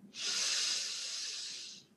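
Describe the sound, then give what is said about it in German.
Airy breath in through one nostril during alternate-nostril breathing: a single long, steady inhale, a soft, even hiss that swells quickly, holds for most of the moment and then fades. “öffnest das rechte und atmest durch das rechte wieder aus. Dann atmest du durch das rechte Nasenloch ein,”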